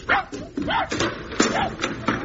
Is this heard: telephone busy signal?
no